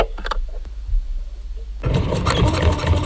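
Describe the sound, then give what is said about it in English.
A sewing machine starts abruptly about halfway through and runs in a dense, steady mechanical whirr that stays loud and even to the end, after a few faint clicks and handling taps. “I so regret making the stupid decision to buy a sewing machine.”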